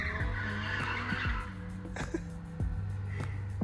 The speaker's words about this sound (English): This guy's racing. Donuts, I'm sure. He's not drifting over here.